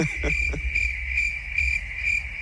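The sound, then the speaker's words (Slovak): Crickets chirp in a steady, high-pitched pulsing trill that carries on evenly throughout. It is fairly faint, with a few low knocks near the start and no voices. “máš pripravených cvrčkov?”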